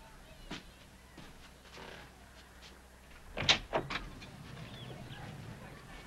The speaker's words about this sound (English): Then he moves his attention to the door. Slowly, He goes over to answer it.